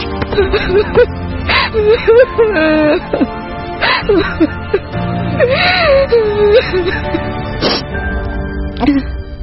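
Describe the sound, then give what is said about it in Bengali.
A woman weeps as she lies face down on a bed, her wavering, high moaning wails broken by gasps and whimpers in several uneven bursts, with no speech. “বিছানার উপর উপুর হয়ে পড়ে কাঁদতে লাগল।”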